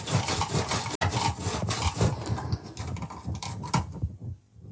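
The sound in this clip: A knife cutting through hard fennel: repeated rough, scraping strokes of the blade in an irregular rhythm, fairly faint and with no talk, tailing off into near silence at the end.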